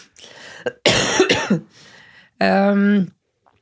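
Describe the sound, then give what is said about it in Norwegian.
Harsh coughing from a person with a persistent cough: a few rough, breathy bursts, then a longer strained, voiced throaty sound that ends the fit. “Og det høres ut som jeg griner. Jeg gjør ikke det, det er bare hosen.”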